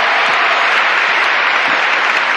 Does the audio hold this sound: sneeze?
no